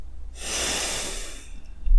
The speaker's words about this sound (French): On peut commencer par prendre, par prendre trois grandes respirations avec le nez. Et soufflez avec le nez aussi. Une autre.